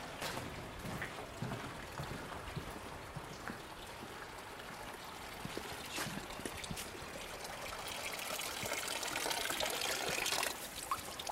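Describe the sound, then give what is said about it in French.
Constant trickling water from a village fountain that never stops running. It makes a steady, even splash and wash with occasional brighter drips, and no voices are heard. “Et c'est à cette fontaine-là que t'as l'eau. Elle coule tout le temps.”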